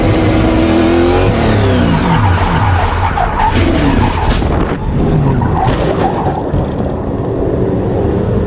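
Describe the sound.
A race car spins out on track during a warm-up lap, below race speed: loud, sustained tire squeal and skidding with the engine revving and blipping, lasting over eight seconds with no talking.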